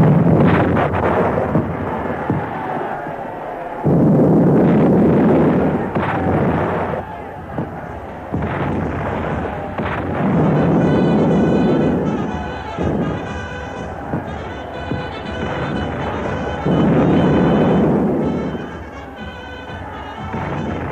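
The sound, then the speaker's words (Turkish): Artillery fire at dawn, a radio drama sound effect for an Ottoman army's assault on the walls of Byzantium: three long rumbling bursts of heavy noise, separated by stretches of voices and other sounds. “Ve şafakla birlikte topçu ateşi başladı.”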